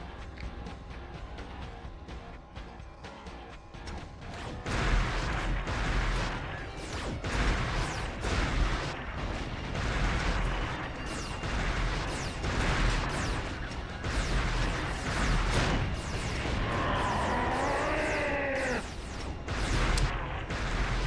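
Tank battle gunfire and explosions from a video game, a dense, continuous barrage of booming blasts and crackling shots with no pauses, growing louder after the first few seconds.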